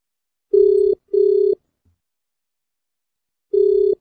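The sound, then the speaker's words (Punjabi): A ringback tone plays on an outgoing telephone call: a steady mid-pitched electronic tone sounds in two short pulses close together, then a pause, then a third pulse. “ਲੋ ਜੀ, ਕਾਲ ਆਪਾਂ ਲਗਾ ਦਿੱਤੀ ਹੈ ਤੇ ਹੁਣ ਦੇਖਦੇ ਹਾਂ ਕਿ ਕਾਲ ਉਹ ਚੁੱਕ ਲੈਂਦੇ ਆ ਜਾਂ ਨਹੀਂ ਚੁੱਕਦੇ, ਹਨਾ। ਕਾਲ ਉਹਨਾਂ ਨੂੰ ਜਾ ਚੁੱਕੀ ਹੈ।”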